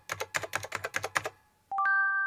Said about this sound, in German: Diese KI ist Schrott. So, das schreibe ich ihr jetzt auch mal.